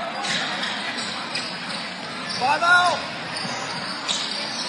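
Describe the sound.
Basketball dribbled up the court during a high school game involving Fort Recovery: a few soft, thudding bounces over a steady murmur of gym noise.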